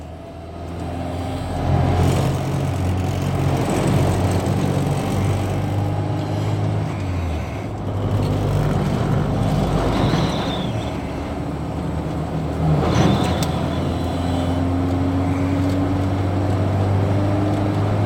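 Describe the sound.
Busy trucks driving past: a continuous low, loud engine drone swells as several heavy vehicles pass one after another, with rising and falling roars and no voices.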